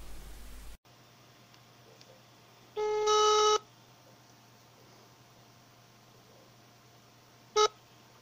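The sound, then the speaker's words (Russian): Telephone tones as a call is placed: a low steady hum under one long, bright ringing tone, then a short sharp beep several seconds later, with quiet line noise between. “давайте позвоним и спросим у него, почему так.”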